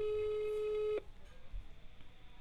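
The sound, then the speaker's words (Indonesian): Ringback tone on an outgoing telephone call: one quiet, steady mid-pitched tone about a second long that cuts off abruptly, leaving a faint line hiss. “Coba gue telepon. Apakah dia ada? Oh, dia nyambung nih, nyambung nih.”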